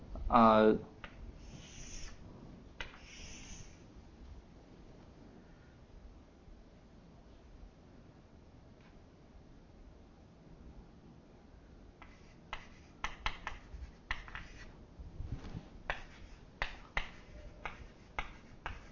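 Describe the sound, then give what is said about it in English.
A picture is drawn on a board, with a few squeaky marker strokes early on, then a long quiet stretch followed by many sharp taps and clicks. A voice is briefly heard at the start. “So let me try and draw a little picture here.”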